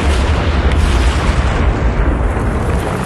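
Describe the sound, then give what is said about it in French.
A mine explosion produces a loud, deep, roaring rumble that stays dense and sustained through the whole clip, with no distinct onset or pause. “Quand la mine du Chardonnay explose”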